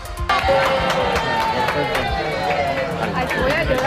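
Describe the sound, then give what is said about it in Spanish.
Clapping and excited crowd noise from Racing supporters who have just got their season tickets, with many claps over busy chatter and voices that stay loud and steady throughout. “Lo que acaban de escuchar son los aplausos y la emoción de los primeros simpatizantes racinguistas que han conseguido su carnet de abonado para esta temporada.”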